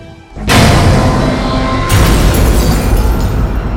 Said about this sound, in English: Below in the city, the Tyrannosaurus is sent flying and down through another two large buildings, smoke and dust rising into the ever-darkening sky.